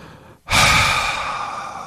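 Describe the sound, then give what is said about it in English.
A long, breathy exhale releases a held breath after a brief silence. It starts strong and gradually tapers off, with no voices. “and then you exhale that breath that you've been holding for the seven count”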